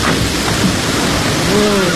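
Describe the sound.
Heavy rain from a thunderstorm pours down as a loud, continuous, unbroken hiss that holds steady throughout.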